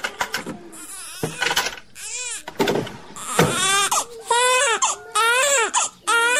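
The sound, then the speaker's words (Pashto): A baby crying in a room while being soothed, loud, insistent wails that rise and fall in repeated bursts, growing longer and more sustained toward the end. “دلته په کوټه کې ماشوم آراموم.”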